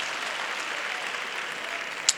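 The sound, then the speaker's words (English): A church audience claps together as they take their seats, making a soft, steady wash of clapping with one sharper click near the end. “Clap those hands and take your seat.”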